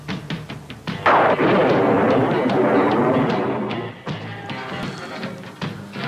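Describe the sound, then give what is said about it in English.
Bombs exploding in a loud, dense barrage, a heavy sustained roar of blasts with repeated sharp cracks and bangs running through it, easing slightly toward the end. “Too many bombs.”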